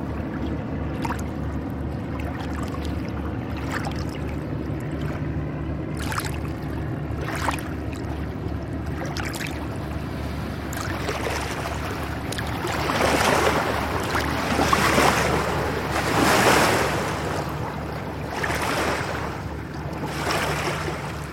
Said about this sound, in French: il y a un bateau là qui passe, une péniche, qui a l'air de transporter du sable